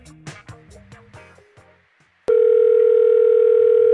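A telephone call being placed: after a few short tonal notes, a loud, steady electronic phone-line tone sounds alone and holds unbroken to the end.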